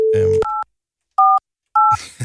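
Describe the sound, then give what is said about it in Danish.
Telephone keypad tones as a number is dialed: three short two-pitch beeps separated by silent gaps. They follow a brief steady tone mixed with a voice, and noise returns at the end. “Jeg ringer til Karoline Haubæk.”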